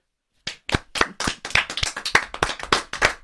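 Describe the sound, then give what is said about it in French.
Sparse audience clapping begins after a brief silence, with many separate, sharp claps from what sounds like a small group, loud and unevenly spaced. “Pas tousser pendant les applaudissements.”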